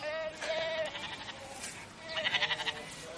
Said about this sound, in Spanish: Apunta a unas ovejas que pastan en un prado.